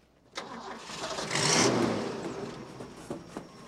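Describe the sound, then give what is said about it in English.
A brown truck engine starting in a parking lot: a brief crank catches, the engine swells to a strong mid-pitched roar, then eases back toward a steady idle. “reverses their brown truck out of the parking lot and they head off down the road.”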